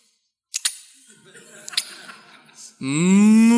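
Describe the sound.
A voice imitates a cow mooing: one low, drawn-out moo that swells and rises slightly in pitch. A few sharp clicks and quiet breathy noise come before it.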